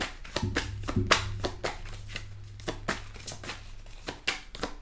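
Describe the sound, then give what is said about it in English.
Oracle cards handled and shuffled while one is drawn from the deck: quiet, crisp riffling and tapping sounds in irregular bursts over a steady low hum, with no talk. “So I'm going to take one of the Oracle cards right quick and see what we have.”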